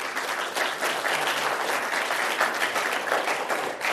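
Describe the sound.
Applause from the audience at the Commonwealth Club greets retired Vice Admiral Dennis McGinn, former Third Fleet commander, a loud, dense, continuous clapping that stays level throughout.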